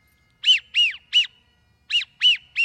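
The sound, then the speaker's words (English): A wigeon duck's whistling call rings out as six clear, arched whistles, alone and moderately loud. They come in two groups of three with a short pause between the groups. “These faint whistles, you can still hear them. The widgeon sounds like this.”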